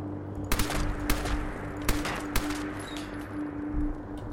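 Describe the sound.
Gunfire in a Bethesda video game during a battle: a few sharp, cracking shots ring out at irregular intervals over a steady low hum and a busy background din.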